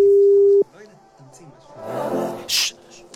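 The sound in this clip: A telephone ringing tone heard while calling someone: one loud, steady tone lasting about half a second that cuts off abruptly, followed by quieter rustling and handling noises.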